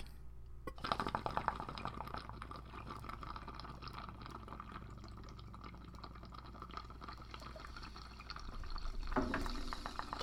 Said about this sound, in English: Let's smoke this fucking bong toke. Three, two, one. Blast off.